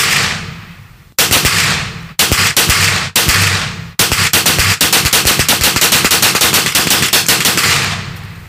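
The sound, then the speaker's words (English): Pistol and rifle gunfire: a few loud, evenly spaced shots ring out, then a long, rapid string of cracks continues to the end, very loud and with no talking. “That's a pistol round and a rifle.”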